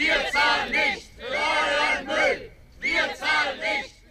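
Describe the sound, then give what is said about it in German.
A small but loud protest chants outside the German Federal Ministry for Economic Affairs. A group of voices shouts short rhythmic phrases in unison, with brief pauses between them. “Der Protest war übersichtlich, aber laut zu hören heute früh vor dem Bundeswirtschaftsministerium.”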